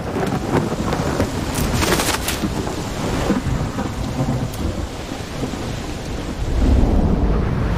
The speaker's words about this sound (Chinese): 崇明岛即将被狂风暴雨吞没，随风摇摆的芦苇无力提供庇护。